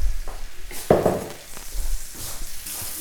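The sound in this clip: Meat sears with rosemary in a pan for a dish from Jewish cuisine, giving a steady sizzling hiss with a few brief clattering bursts of stirring.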